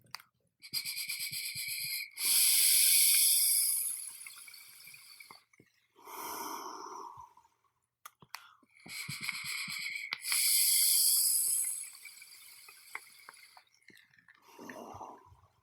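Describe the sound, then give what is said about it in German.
Vaping on an e-cigarette with a Tuscan-flavour liquid, using an Emmet 25 atomizer set to 40 watts: long airy hissing draws, then breathy exhales, repeated twice, fairly quiet with silent gaps between. “ich dampfe jetzt einmal eine Kostprobe für die von Flavor Art Tuscan aus dem Emmet 25 bei 40 Watt”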